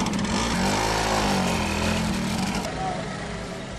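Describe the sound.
A motorcycle's engine drones with a steady, low buzzing rumble that eases off slightly near the end as it pulls away.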